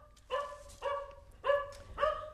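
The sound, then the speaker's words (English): A dog barks four times at an invited guest standing at the front door of a family house. The barks are fairly faint, tonal and evenly spaced, with no talking. “The dog never liked him.”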